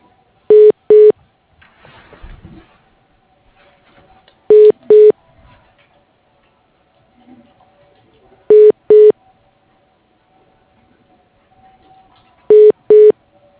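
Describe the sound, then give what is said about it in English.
Telephone keypad dialing tones on an office phone line's automated menu: eight short, steady beeps in four evenly spaced pairs, standing out loudly over a faint low hum. “For Randy Barrett, dial 3.”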